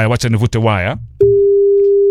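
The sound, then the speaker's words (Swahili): A telephone line tone, steady and single-pitched, holds for about a second after a stretch of talk at the start, unbroken and fairly loud. “Wacha nivute waya. Ndo hiyo inalia simu.”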